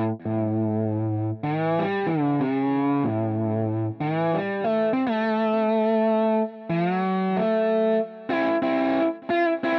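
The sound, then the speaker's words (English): An electronic touch-controlled instrument, a large tablet-like surface that sets notes and scales and responds to the fingers like an acoustic instrument, plays a stepping melody of sustained, buzzy, distorted tones, each note held and gliding into the next, with no voices. “He basically made an instrument that is a giant iPad that controls different notes and scales, and it reacts to your fingers the same way an acoustic instrument would, and it actually sounds pretty cool.”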